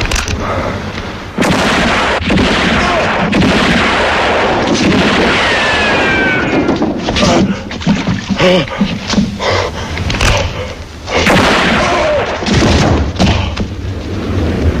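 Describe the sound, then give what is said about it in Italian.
Pistol gunfire: a rapid series of loud, sharp shots with booming thuds between them. “Quando si spara, non si parla. Ogni pistola ha la sua voce. E questa la conosco.”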